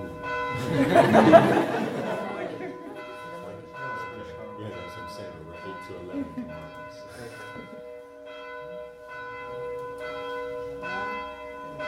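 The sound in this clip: Church bells ring with sustained, overlapping tones, loudest near the start, while people chat and laugh over them.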